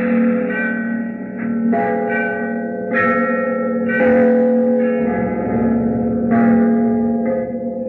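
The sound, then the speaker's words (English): Church bells ring in a series of overlapping strikes, each clang leaving a sustained, humming tone that blends into the next at a steady, unhurried pace. “bells. Bells”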